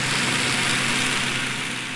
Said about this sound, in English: normally this time of year there are a lot of cruise ships and boat tours, which is, you know, how visitors see the glaciers of Glacier Bay National Park. And underwater it sounds like this.